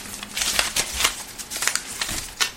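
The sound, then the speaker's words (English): A paper slip is drawn from a hat with a busy, crinkling rustle. Soft scratchy crackles run for a couple of seconds without speech. “All right, let's draw from the hat again. Here we go.”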